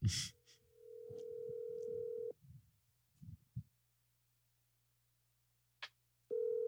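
Outgoing telephone call ringing out after dialing with caller ID blocked. One steady ringback tone lasts about two seconds, then a long near-silent gap with a few faint noises, then a second ring begins. Quiet overall.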